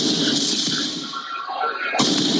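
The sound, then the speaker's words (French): Firework mortars fired at firefighters: a harsh, hissing, crackling roar that sags briefly, then bursts back loudly near the end. “Regarde comment ils tirent sur les pompiers”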